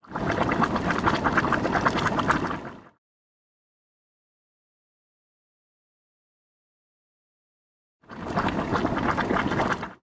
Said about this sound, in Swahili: Nimesikia maji huchemka kila wakati. Ndiyo, maji moto hayaachi kuchemka. Tukikaribia kidogo, tutasikia maji yakichemka.